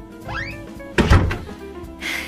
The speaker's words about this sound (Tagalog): Sarado mo na yung pinto.